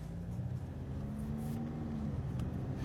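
A car drives off with a steady low engine hum and faint road rumble, its tone holding fairly level throughout.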